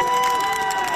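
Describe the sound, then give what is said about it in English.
Dense, rapid clacking from fans' Canadian Clapper handheld maple-leaf noisemakers cheering the Canadian team at the World Cup. The brisk, continuous rattle is loud and steady and blends into crowd noise. “That's not the sound of sports fans clapping. That's the sound of their Canadian clappers clapping for the Canadian team at the World Cup.”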